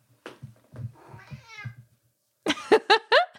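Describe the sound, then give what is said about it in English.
A sick pet cat meowing: quieter low sounds and a softer drawn-out mew, then a quick run of four short, loud meows at the end. “That's my cat. She's been sick. I haven't thrown her out. So I'm just going to let her stick in here.”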